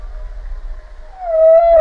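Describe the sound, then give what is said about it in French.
Humpback whale call: a sustained tonal moan with a slight bend in pitch, swelling louder toward the end. “Réponse de la baleine à bosse.”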